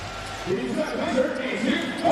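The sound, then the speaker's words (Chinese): A basketball bounces at the jump ball of a CBA game between Shanghai and Shandong, with dull thuds heard under a commentator's speech. “好，双方跳球，”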